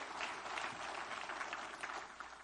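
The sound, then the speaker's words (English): A church audience claps for the Lord, a soft but dense patter of many hands with slight swells, sustained throughout at a low level. “Give the Lord a good clap off, would you?”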